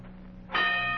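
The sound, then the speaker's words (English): A boxing ring bell signals the start of a fight with a single struck ring that sustains as a steady, bright tone over a low continuous hum. “There's the bell. His first fight is on.”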